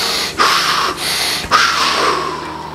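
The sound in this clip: Rapid breathing exercise with fast, forceful inhales and exhales, a few sharp airy breaths in close succession with no talking.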